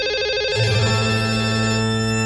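A telephone rings with an incoming call, a steady electronic ringtone made of sustained tones that holds at an even level throughout with no voices.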